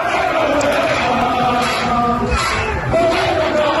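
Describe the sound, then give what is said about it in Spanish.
A crowd celebrates in the streets of Barcelona during a title party with the club's players. The din of many voices is constant, with scattered shouts over it. “Sonido en directo de las calles de Barcelona.”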